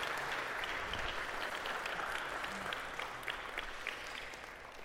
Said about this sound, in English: Let's give Pato a hand.